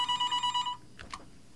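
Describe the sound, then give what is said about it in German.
An electronic telephone ring for an incoming call: a short burst of rapidly pulsed, bright warbling tones, then silence broken by a couple of faint brief sounds. “jetzt ruft äh, Feiri an.”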